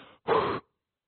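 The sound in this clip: A voice imitates a dying person's last breath with one short, breathy exhale that stands alone after a faint murmur and then stops abruptly.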